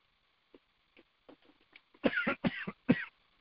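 A person with a tickle in the throat coughs and clears their throat: a few faint, scattered clearing sounds, then three sharp, louder coughs close together.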